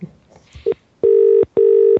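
Telephone tones sound while a call is being placed: a short tone, then two long, steady mid-pitched tones with a brief gap between them.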